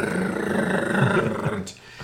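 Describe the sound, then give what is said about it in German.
A drum roll attributed to the Duracell bunny: a dense, rough, rumbling roll held steadily for about one and a half seconds before breaking off abruptly. “der Duracell-Hase macht einen Trommelwirbel.”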